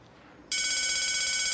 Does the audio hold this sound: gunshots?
no